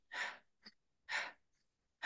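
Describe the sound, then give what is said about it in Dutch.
Quick breathing like hyperventilating, with breaths pushed in and out in rapid succession. A few loud, airy breath bursts come alone, with a fainter short breath between the first two. “in dit tempo gaat ademen, dan ben je eigenlijk een soort van aan het hyperventileren.”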